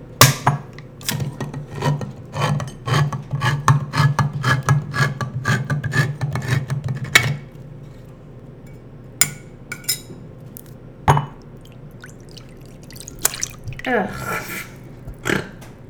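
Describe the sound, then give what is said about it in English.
A can of salmon is cracked open and its skin, juice, bones and meat dumped into a bowl: many sharp metallic clicks and rasping scrapes, then a quieter stretch with a few wet knocks and sloshes. “that is the sound of me cracking open a can of salmon and dumping its contents into a bowl. Skin, juice, bones, meat, and all.”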